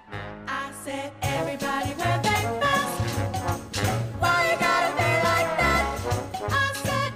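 Lively ensemble music, written in response to the nation's struggles and performed on a concert tour, plays loud and full, with a dense tonal mix over strong bass notes in a steady, driving pulse.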